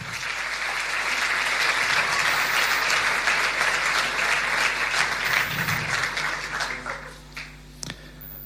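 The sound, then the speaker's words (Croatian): Audience applause at a Christian community gathering: a dense, loud wash of many hands clapping at once, holding steady for about seven seconds before thinning out into a few scattered final claps. “Može jedan pljesak za njih sve.”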